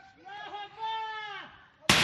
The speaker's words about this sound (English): Afghan forces firing shots in the capital of Badghis province after the Taliban stormed the city